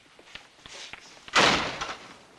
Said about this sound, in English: Yevgrov gives him a quick, unsmiling nod, then shuts the door behind him.